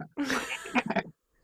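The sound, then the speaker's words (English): A human voice imitates bleating sheep or goats, recalling livestock in a stage production's final scene during rehearsal. It is one wavering, nasal call about a second long that breaks into quick pulses toward the end. “there was one year they had, it was sheep or goats. And they started in the middle of rehearsal going,”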